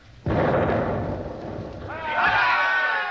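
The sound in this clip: A gun fires a single round at a ship, a sudden heavy boom followed by a rolling rumble. Shouting voices rise near the end.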